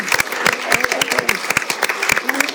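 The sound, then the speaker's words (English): Live audience applause as a guest comes on stage at a live show in San Francisco: dense, steady clapping from many hands throughout, with voices mixed in. “Okay, let's give it up Erica. for Erica.”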